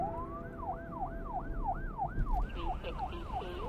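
Police car sirens wail as the cars pull into a parking lot in front of a club, a rising and falling electronic tone repeating many times at a quick, steady rhythm over low vehicle rumble.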